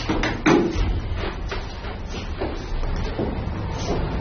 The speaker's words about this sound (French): Là, le bruit que vous entendez, c'est simplement les compressions de la climatisation.